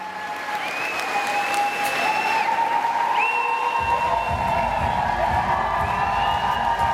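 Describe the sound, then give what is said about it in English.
Antwerp fashion students cheering, whooping and applauding as they celebrate their graduation at the finale of a graduation fashion show, with sustained high cries over loud dense clapping and a lower rumble joining midway. “This is the sound of euphoria and the sound of Antwerp fashion students celebrating the culmination of 1, 2, 3, and most importantly, 4 years at one of the most rigorous and challenging fashion schools in the world.”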